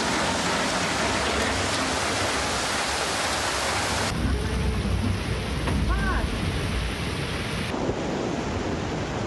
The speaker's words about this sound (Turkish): Başkente öğle saatlerinden sonra başlayan sağanak yağmur etkili oldu.